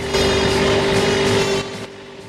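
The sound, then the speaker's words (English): Engine drone of a battered, supercharged Ford Falcon muscle car speeding along a long, straight desert road. A steady, sustained tone holds loud, then drops off in level near the end. “Max hurtles along in a battered Ford Falcon muscle car with a supercharger that protrudes from the bonnet.”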